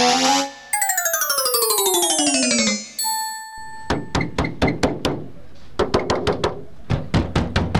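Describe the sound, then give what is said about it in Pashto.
Someone knocks on a door with a stone, producing ringing, metallic-sounding strikes in quick uneven bursts that are many and loud. A few seconds of descending sliding tones come before the knocking. “دا څه ډول خلک یې چې دروازې ته مو ډبره نیولې ده او ډبه وایې؟”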